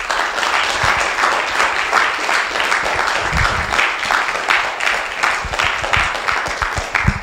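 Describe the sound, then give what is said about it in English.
Audience applause welcoming a speaker: loud, dense clapping that holds steady throughout without a break. “So please put your hands together and welcome Ms. Pamela Shine.”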